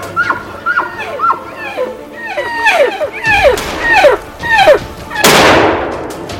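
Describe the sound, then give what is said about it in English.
A single loud, sharp crack from a hunting rifle fired at a wolf, with a decaying tail. It follows a run of many short chirping calls. “Got him, dropped him. Nice shot, buddy.”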